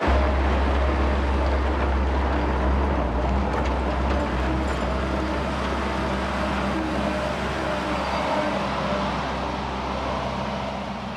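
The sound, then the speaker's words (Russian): Heavy construction machinery drives around a small building site, producing a loud, steady low engine rumble with a constant mechanical drone that barely varies and eases slightly toward the end. “На небольшой территории происходит стройка. Большие машины спецтехники ездят повсюду.”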